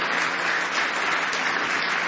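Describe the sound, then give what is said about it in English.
A church audience claps its hands in praise during a morning service. The many hands make a dense, continuous clatter at a steady, full loudness, with no voices over it. “Give Him one more hand clap of praise if you love Him this morning.”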